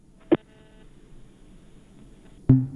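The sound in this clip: Telephone tones sound as a caller's line is cut off during a phone-in: two short, clear tonal beeps, one near the start and one near the end, with a faint hum between them.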